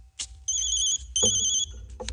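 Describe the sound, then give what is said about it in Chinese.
A telephone rings in two electronic bursts with a steady, high, buzzing tone, separated by a short gap, over a low background rumble. “电话。”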